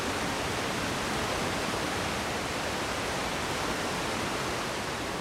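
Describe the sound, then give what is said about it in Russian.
A waterfall pours between two large boulders on a slope with leafless trees, producing a steady, even hiss of rushing water that stays constant and unbroken from start to finish. “Между двумя большими валунами стекает водопад.”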